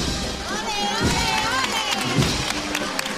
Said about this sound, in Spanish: El aplauso aquí de nuevo de todos los devotos de la Virgen del Refugio.